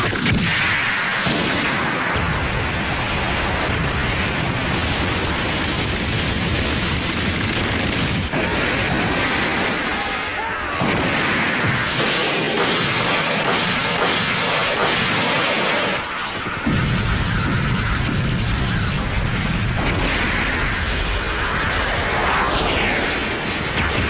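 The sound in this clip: Artillery and gunfire from an army opening fire with cannons in a battle: a loud, dense, continuous barrage of overlapping blasts and booms that keeps going for about 24 seconds with only brief dips.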